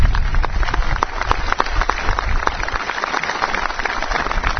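Audience applause greeting an official guest from the Russian embassy at a public gathering, dense and steady clapping at a moderate level that carries on throughout with no voices.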